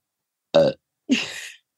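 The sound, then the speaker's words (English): A burp comes through a video call as two short, loud guttural bursts separated by a pause. The second is longer and raspier, and silence surrounds both. “I was worried that there wouldn't be any burps via Zoom, but like, it's here you go.”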